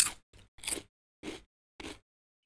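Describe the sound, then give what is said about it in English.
Someone chomps into a piece of golden honeycomb with five crisp, crunchy bites separated by short silent gaps, the last two more widely spaced, with no voices. “taking a piece of the golden honey out and chomping happily down on it.”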